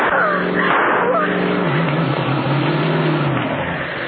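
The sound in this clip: Loud engine roar of a car driving fast across lawns and fields, a dense, steady drone with strong low harmonics that holds throughout and eases slightly toward the end.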